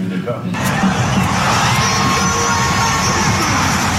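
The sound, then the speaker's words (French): San Antonio Spurs basketball fans cheer at an open practice in San Antonio. After a brief quieter moment, a loud crowd roar bursts in and holds steady, full of shouts and whoops. “Vous l'entendez, les supporters des Spurs sont déjà bien chauds. Mais ça, c'était juste l'ambiance pour un match d'entraînement ouvert au public.”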